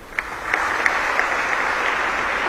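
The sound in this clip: Applause at a presidential medal ceremony, a steady, even wash of clapping throughout with a few sharper individual claps standing out early on.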